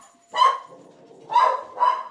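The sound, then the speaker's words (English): Three sharp, high barks from a female poodle and cocker spaniel mix: one bark, a pause, then two more in quick succession. “That's my dog.”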